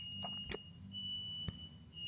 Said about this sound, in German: Mein Rauchmelder piept.